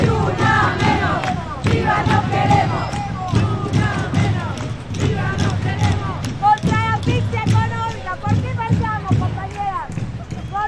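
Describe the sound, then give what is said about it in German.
A crowd chants together at a street demonstration against femicide by a women's rights movement, many loud voices shouting rhythmic slogans in unison, rising and falling in repeated phrases. “So klingt es dann auf einer Demonstration. Also es gehen regelmäßig Zehntausende auf die Straßen und protestieren.”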